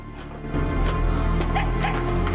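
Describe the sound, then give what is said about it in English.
A dog whimpering excitedly in a pitch-black tunnel, giving a few short, high, whining yelps over a low, steady rumble. “The dog has run on ahead and is whimpering excitedly.”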